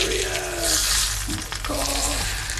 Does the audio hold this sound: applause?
no